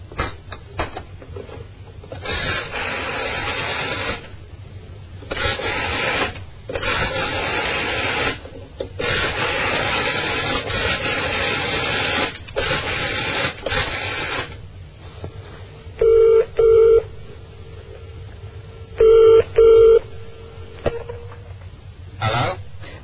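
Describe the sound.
A London telephone number dialled on an older phone: a long series of rasping dial bursts separated by pauses, then two rounds of a double ring tone.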